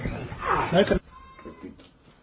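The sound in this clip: A goat gives a single loud, wavering bleat. Afterwards quieter voices speak.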